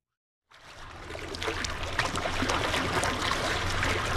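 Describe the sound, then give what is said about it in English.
Water of Lake Michigan fades in after a short silence and settles into a steady, full wash of lapping, splashing water that continues without pause. “So it's no surprise that the sound you're hearing right now is one of our most popular requests. It's the soothing sound of Lake Michigan.”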